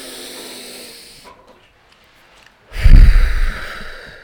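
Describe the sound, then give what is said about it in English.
A single deep breath taken together in a guided breathing exercise, heard as one loud, rough rushing exhale lasting about a second after a quiet pause, with faint hiss before it. “now slowly open your eyes and let's take a deep breath together.”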